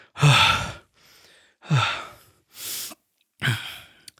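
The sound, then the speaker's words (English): A voice imitates a man's heavy breathing: loud, sighing exhales alternating with quicker, fainter inhales, a few strong breaths in a slow, labored rhythm. “he's just kind of breathing heavily and going like,”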